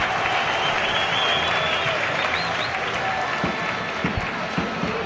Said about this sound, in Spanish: Y este es el público en el Rico Pérez.